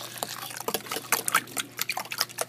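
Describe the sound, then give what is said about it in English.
Milk poured into eggs and sugar in a kitchen, a busy run of quick gurgling glugs and liquid drips in an uneven rhythm. “And that's the sound of pouring in the kitchen. Glug, glug, glug, glug.”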